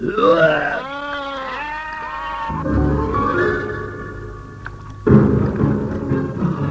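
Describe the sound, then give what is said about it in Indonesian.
A magical goat bleats during a fairy-tale chase beside a lake, its wavering, vibrato bleats sounding for the first few seconds, then giving way to a low rumbling and a sudden heavy thump. “Oh, kerahkan tenagamu, kambingku yang sakti.”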